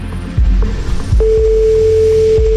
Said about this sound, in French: Bah, c'est occupé, oui.